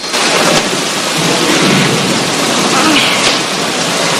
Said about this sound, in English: forges on while the rain continues pelting down.